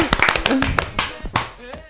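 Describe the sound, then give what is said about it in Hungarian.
Applause sound effect, a short burst of sharp, loud hand clapping with voices talking over it throughout. “Tapsefektet elfelejtettünk berakni, úgyhogy tapsefekt!”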